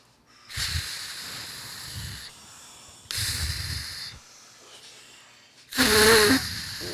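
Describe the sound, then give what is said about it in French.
Breathy blowing into a drug test device: three sustained puffs of air, each lasting a second or more, separated by short pauses, with the last puff the loudest and harshest. “Vous voulez bien souffler et répéter ces phrases après moi? Vous soufflez?”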